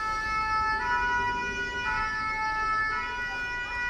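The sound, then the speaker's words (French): A fire engine siren gives a sustained, high-pitched tone with rich harmonics and a slight pulsing swell. It holds throughout and is fairly faint. “C'est le son d'une sirène de pompier.”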